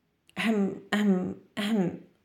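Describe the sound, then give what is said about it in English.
A voice imitates a penguin father's fit of coughing: three drawn-out, voiced coughing bursts of similar length and loudness, each separated by a short pause. “For some reason, Flop's dad couldn't stop coughing.”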